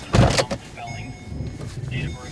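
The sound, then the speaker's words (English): A police squad car: a heavy door thump comes first, then quieter mechanical whirring and rustling from the vehicle. The thump is short and loud. “After the second call, Officer Novak and I hurry back to the squad car.”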